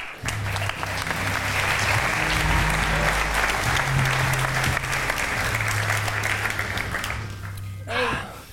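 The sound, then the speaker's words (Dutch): Audience applause welcomes a guest onto a show: steady, dense clapping holds for about eight seconds and tapers off near the end. “Dames en heren, handjes op elkaar voor Mees Bovenlander.”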